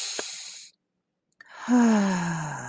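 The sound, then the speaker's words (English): A deep breath taken in and let out during a breathing exercise: a short airy breath, a brief silence, then a long voiced sighing exhale that falls in pitch. “Let's just take a deep breath in and out.”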